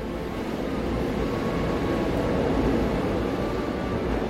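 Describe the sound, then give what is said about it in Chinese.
A Line 5 metro train pulls into a station with an even, continuous rumbling roar. The sound is steady and moderately loud throughout. “又一列车进站了，注定了五号线的故事将翻开新的一页。”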